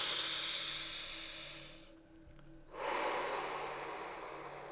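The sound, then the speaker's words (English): A deep breath is taken: a loud, airy inhale lasts about two seconds, then comes a brief silent pause and a long, steady, hissing exhale, with no talking. “Take a breath.”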